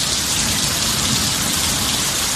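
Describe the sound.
Steady rain falling, a dense continuous hiss of drops that holds an even loudness throughout, with no voices.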